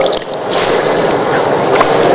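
Water is poured over the left hand while washing for ablution, a loud, continuous splashing hiss that rises slightly after a brief start and then holds steady.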